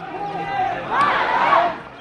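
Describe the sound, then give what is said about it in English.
Crowd chanting and shouting from mostly male spectators in the stands at the Wagah border flag-lowering ceremony. Massed voices rise and swell, growing louder and more insistent in the second half. “Soon we can hear the chants of Pakistanis in the stands on the other side of the border gates, mostly men with skullcaps and beards, assembled just 100 metres away. A shouting match begins.”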